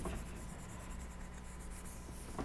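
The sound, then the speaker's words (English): Erasing a board during a class, a soft, steady rubbing made of many quick, rhythmic strokes, faint throughout. “we're going to be looking at the shield of faith today while I erase the board”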